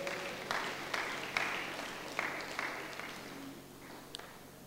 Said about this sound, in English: Put hands together for the Lord.